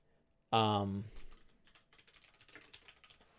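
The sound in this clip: Typing on a computer keyboard while preparing a tabletop role-playing session. A brief loud voiced sound comes first, followed by a faint, irregular patter of key clicks.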